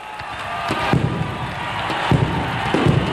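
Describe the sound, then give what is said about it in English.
Explosion blowing up a pile of disco records at Disco Demolition Night, heard as a few deep booms and thumps bursting out of a steady, roaring wash of noise. “We're going to count to three, and then go boom. One, two, three, boom!”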